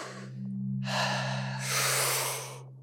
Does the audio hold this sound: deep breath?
yes